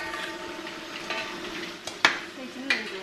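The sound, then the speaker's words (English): Busy restaurant kitchen at Black Sesame in Beijing with a feast being cooked: steady hiss and clatter of pans and utensils, broken by a few sharp metallic clinks toward the end. “The kitchen here at Black Sesame is cooking up a feast.”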